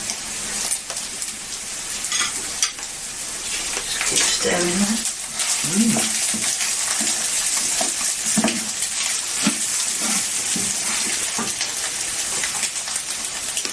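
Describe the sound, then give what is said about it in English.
Stirring in a frying pan of uncooked rice fried straight with added ingredients: a constant hissing sizzle broken by repeated scraping strokes of the utensil against the pan. “Just keep stirring that.”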